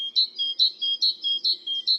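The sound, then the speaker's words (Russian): Great tit song: a rapid, strictly rhythmic series of clear, high whistled notes, alternating higher and lower pitches in repeated two-note phrases, loud and alone. “Большая синица поет всегда по-разному, у нее много разных песен, но это всегда очень ритмичная песня.”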